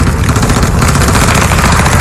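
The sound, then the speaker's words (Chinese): Sustained machine-gun fire on a battlefield, a loud, dense rattle of rapid shots merging into an unbroken roar that continues throughout, with no voices. “机枪不断喷射着火舌，增援的战友不断的倒下。”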